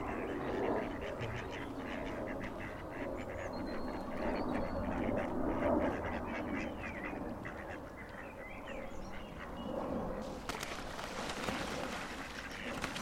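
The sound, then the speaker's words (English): Two ducks quacking, a busy stream of nasal quacks that overlap and answer each other against a constant low outdoor background. “Two of them. Stereo ducks.”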